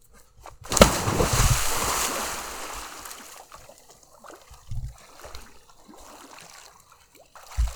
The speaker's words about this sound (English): we're going to do a cannonball in the pool, and you're going to hear the results.